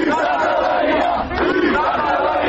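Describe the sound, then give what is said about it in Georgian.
Students chant in protest outside the Defence Ministry. The crowd's voices merge into a loud, sustained roar with a brief dip midway. “ძირს ახალაია. ეს იყო თავდაცვის სამინისტროს წინ თავმოყრილი სტუდენტების მთავარი შეძახილი.”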